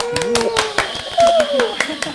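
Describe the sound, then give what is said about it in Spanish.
Scattered hand claps from a radio show's audience, several sharp claps at an uneven pace under a voice that talks throughout. “Vamos, un aplausito.”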